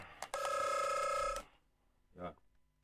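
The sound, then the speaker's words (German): A telephone rings for an incoming call: after a click, a single steady, buzzing electronic ring lasts about a second. Quiet follows, then a brief, faint voice. “Jetzt ruft gerade der Markus an.”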